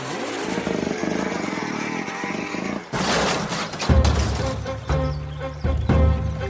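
A motorcycle roaring along in a radio drama scene, a sustained buzzing engine drone that briefly drops out partway through before a louder, harsher stretch returns.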